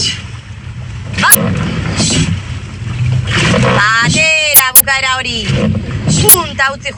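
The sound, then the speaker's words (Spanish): Women rowers training in a rowing boat in Donostia: a few sharp knocks ring out over rushing water noise, with voices calling loudly between and over them. “Entrenamiento de las remeras de Raúl Lagunac en Donostia.”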